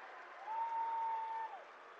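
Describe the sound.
Crowd applause and cheering in the Roland-Story gym after a 10-3 wrestling decision at a high school match, a steady broad roar that swells for about a second, with a sustained whistle-like tone over it.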